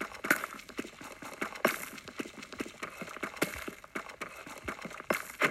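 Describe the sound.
Digging into gravel and cobblestone blocks in a video game mine: many quick, crisp crunching hits in an uneven rhythm, fairly faint and with no talk over them.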